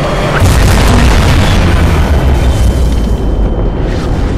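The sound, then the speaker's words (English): The big guns of a giant warship fire at incoming targets. Heavy, deep booms blend into a loud, continuous rumbling roar that barely eases for the whole stretch. “As the giant ship's body slowly turns to starboard, her big guns twist to the incoming targets and erupt.”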